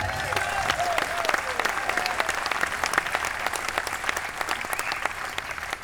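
An audience applauds to welcome a performer onstage, with dense, rapid clapping that stays strong and even throughout and fades only slightly at the end.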